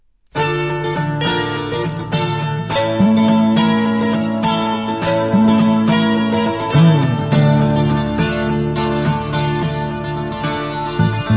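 An Italian pop song that won the 1971 Sanremo festival: a full band enters abruptly and plays a steady beat under sustained melodic lines and chords.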